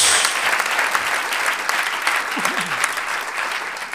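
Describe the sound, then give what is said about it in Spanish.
An audience applauding in a Spanish-language church service while praising God, with loud, continuous clapping throughout and a brief vocal exclamation near the middle. “Ahora démosle un aplauso al Señor.”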